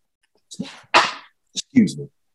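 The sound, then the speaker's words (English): A single sneeze: a short, loud, breathy burst, with a brief intake before it and soft breathy sounds after it. “had to sneeze. No, it's not Corona.”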